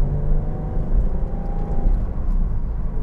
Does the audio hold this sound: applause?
no